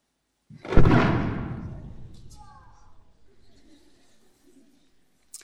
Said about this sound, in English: What you're about to see is 120 pounds of C4 detonated with our closest microphones within 40 feet of the blast.